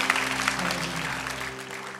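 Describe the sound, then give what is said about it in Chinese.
An audience claps in praise during a Chinese-language church worship service. The applause is steady and even, with low, sustained tones underneath that drop away near the end. “好不好，再一次为了我们的神来拍手来赞美他。”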